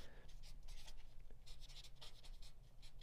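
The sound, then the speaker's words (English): Faint scratching of a pen on paper as someone jots down a note by hand, a soft, uneven run of short strokes at low volume. “I think I still need to send that invite. I need to do that today. Let me write that down.”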